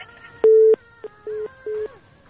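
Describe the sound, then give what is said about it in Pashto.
Telephone busy signal after a call drops during a phone-in: a few short, even bursts of a steady mid-pitched tone in a regular on-off pattern, heard over a faint background. “له بده مرغه چې اړیکه یې قطع شوله. اړیکه یې قطع شوله”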